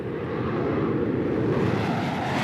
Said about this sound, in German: Da kommt er. Fahrgestell und Landeklappen raus. Mein Gott, ist das seine Landegeschwindigkeit?